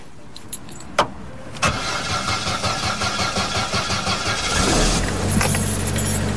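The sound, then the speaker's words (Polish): A car with a 1.4-litre engine converted to run on LPG starts in Poland: a click, then several seconds of steady, rhythmic cranking before the engine catches and settles into an even idle. “Pojemność 1,4. Oczywiście zagazowana, jak to w Polsce.”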